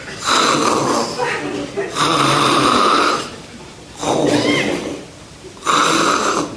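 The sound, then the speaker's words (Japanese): Snoring imitated by a performer's voice during a comic storytelling act: four loud, rasping snores in a slow, even rhythm, each separated by a brief quieter gap. “いびきが聞こえるね”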